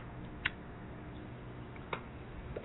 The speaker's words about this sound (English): Let me relight this cigarette.